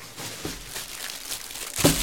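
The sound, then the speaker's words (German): Plastic wrapping around a bell pepper crinkles and rustles in a few uneven, crackly bursts, with the sharpest crunch near the end. No one speaks. “Das ganze Gemüse in Plastik eingepackt. Zum Beispiel die Paprika hier.”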